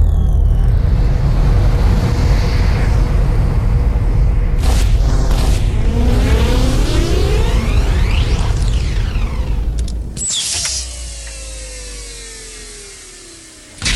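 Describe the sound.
A science-fiction spaceship intake engages with a loud, sustained rumbling roar carrying sweeping whooshing tones, then cuts abruptly to a thinner whine with falling tones that ends in a short bump.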